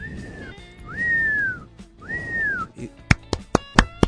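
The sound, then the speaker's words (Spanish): A whistling and applause sound effect: three long whistled notes, each rising and then easing down slightly, followed by a few sharp claps at the end. “Eso, nuestro sonido, tenemos acá los efectos, ¿no? Tenemos los silbidos y los aplausos.”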